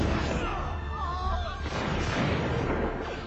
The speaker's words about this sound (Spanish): Preparan sus fusiles Broadbeck y disparan contra los colonos.